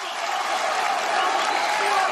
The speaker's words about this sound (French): Et chaque défense de lutte d'O'Malley est saluée par le public.